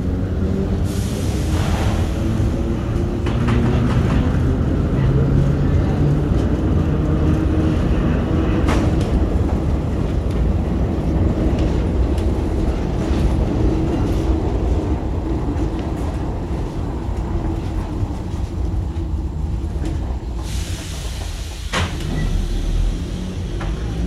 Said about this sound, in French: Descendre du train.